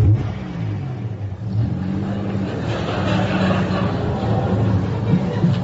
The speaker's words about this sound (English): Okay, driver, just reverse back to that corner so we can see you arrive.